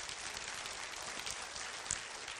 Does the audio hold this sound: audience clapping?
yes